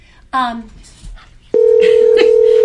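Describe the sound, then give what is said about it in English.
Telephone tones announce an incoming call: a steady tone switches on abruptly after a short stretch of talk and holds one pitch to the end, with speech briefly overlapping it. “Oh, we have a call. Sarah, I didn't mean to interrupt, but we have a call.”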